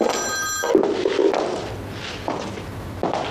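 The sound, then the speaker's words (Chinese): A telephone rings with a bright electronic tone for a brief moment, then cuts off. Soft thumps and movement sounds follow in the quiet, with no talk. “来电话，接个电话啊。”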